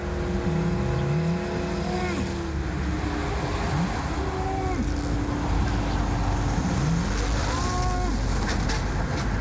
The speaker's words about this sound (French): Ici, pas de plis, pas de collines, pas de montagnes pour dissimuler le son de l'autoroute.